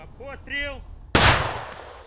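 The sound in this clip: A single gunshot rings out on the front line of the southern counteroffensive near Orikhiv, Ukraine, a sharp loud blast with a trailing decay, heard just after a brief voice.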